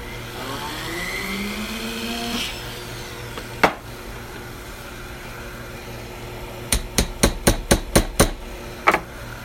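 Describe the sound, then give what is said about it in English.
Sharp metallic hammer taps from a jewelry-making process ring out over a steady low mechanical hum. A couple of isolated strikes come first, then a quick, evenly spaced run of several taps, and one more blow near the end. “this is the sound of my jewelry making process.”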